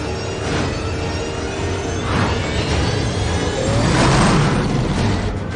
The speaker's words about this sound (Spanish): Luego se introduce en un túnel y va adelantando a otros coches a una velocidad estratosférica.